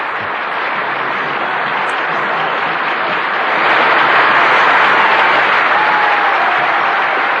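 Studio audience applause fills a radio call-in show, a dense, steady clatter of many hands that swells louder midway and stays strong to the end.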